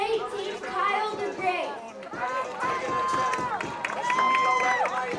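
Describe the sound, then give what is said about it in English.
Baseball stadium crowd cheering and chattering at Coates Stadium in the bottom of the fourth inning, a steady, dense roar of many voices, with talk running over it throughout. “this crowd is really getting into it at Coates Stadium.”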